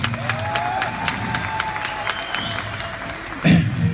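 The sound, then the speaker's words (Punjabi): Sustained applause from an audience, steady dense clapping throughout with a brief louder surge near the end. “ਲੰਬੀ ਤਾੜੀ ਇਹਨਾਂ ਦੇ ਨਾਲ”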